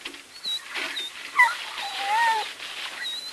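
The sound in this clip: A collie whimpers and whines while digging frantically, giving a few thin, high, wavering cries over a steady rustling background.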